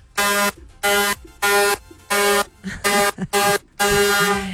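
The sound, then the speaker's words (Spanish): A truck's air horn blares in a series of loud, brassy blasts of steady pitch with short gaps between them, the final blast held longest, with no voices. “Los pitos que yo tengo aquí. Suena largo y tendido.”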